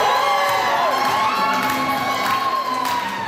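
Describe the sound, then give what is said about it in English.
A crowd cheers and whoops at the Winnipeg AfriFest fashion show as grandmothers in handmade traditional clothing walk the runway. The cheering is loud and sustained, with high shouts and whoops rising above it. “What you're hearing is the sound of a dozen grandmothers walking their way down a runway this weekend, dressed in their best traditional handmade clothing.”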